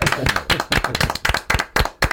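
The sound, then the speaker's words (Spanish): Audience applause at a live question-and-answer show: loud, steady clapping with many sharp, evenly spaced claps that continue throughout without letting up. “Yo pido otra ovación para Adrián Gutiérrez.”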